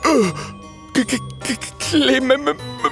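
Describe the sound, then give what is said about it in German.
A human voice imitates a ghost's eerie howl with wavering, moaning wails that open on a long falling cry and then break into shorter rising and falling moans. “In diesem Augenblick hören sie ein schauderhaftes Heulen.”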